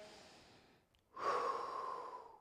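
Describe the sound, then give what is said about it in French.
Deep breathing during a fitness workout: a soft, breathy stream fades into a brief pause, then a louder, longer airy breath follows, with no talking. “Très important aussi, on respire, s'il vous plaît.”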